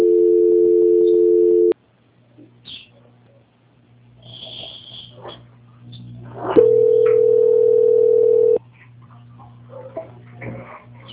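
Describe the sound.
Steady telephone tones sound during a call transfer: a flat, mid-pitched tone of about two seconds, a quieter gap with faint clicks and noises, then a second identical tone of similar length.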